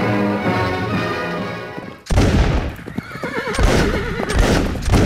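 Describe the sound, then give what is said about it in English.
Horses gallop and neigh as riders flee across southern French countryside. After a tonal opening, a sudden loud crash brings in pounding hoofbeats and a loud, wavering whinny. “We left them as they were riding for their lives across southern French soil.”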